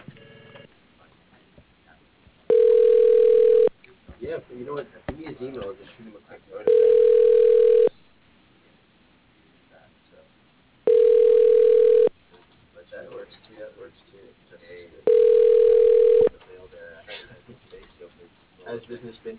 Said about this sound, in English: Okay, tell you what, let me, I'll just transfer you over to his voicemail. Hold just one sec.